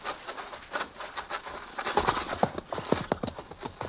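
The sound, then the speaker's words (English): Hoofbeats of a horse carrying a rider as it approaches, a rhythmic clip-clop that grows louder and denser through the second half. “How close? I don't know. There. Look, a horseman.”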